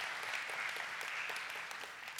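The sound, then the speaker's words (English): A church audience applauds with a faint, steady wash of many hands clapping together. The sound holds at an even level for the whole stretch, with no voices standing out. “why don't you give your church a round of applause for being incredible”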